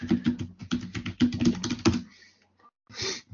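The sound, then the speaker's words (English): Typing on a computer keyboard, a rapid run of many clattering keystrokes for about two seconds, then a brief pause and a short final burst of keys. “I'm going to type.”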